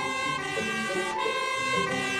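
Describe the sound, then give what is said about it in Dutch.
A siren from a car driving down a street sounds a loud, steady, harmonic wail that holds throughout, with no voices. “dat is een sirene.”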